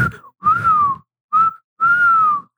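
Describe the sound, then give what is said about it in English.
Whistled imitation of a turkey vulture: a few clear mid-pitched whistled notes with short gaps, the longer notes sagging slightly in pitch, with no other sound. “I was trying to do a turkey vulture yesterday. I was like, why was I trying to whistle a turkey vulture?”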